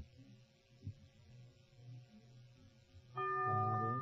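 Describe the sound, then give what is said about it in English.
A bell is struck once to mark a wrong answer in a radio quiz game. Its bright, sustained ringing tone enters near the end and follows several seconds of faint, low background hum. “The bell is tolled.”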